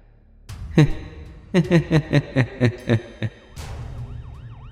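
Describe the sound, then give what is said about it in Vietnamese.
An ambulance siren sounds as a string of short, evenly spaced, bright harmonic tones, followed by a fainter wavering wail that rises and falls. “Tiếng xe cứu thương vang lên.”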